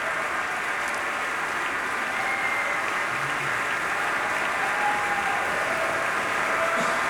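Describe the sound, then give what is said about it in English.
An audience applauds after a performance of Mahler's Resurrection Symphony No. 2 by the Pacific Symphony orchestra, with continuous, steady clapping that stays at an even level throughout. “And continuing applause as Alexander Shelley acknowledges various members and sections of the orchestra.”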